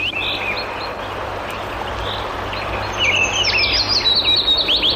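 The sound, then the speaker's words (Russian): Chaffinch song: high, bright, rapid chirping notes that grow livelier and louder in the second half, ending in a quick descending run of repeated notes over a steady low background hum. “Послушаем зяблика.”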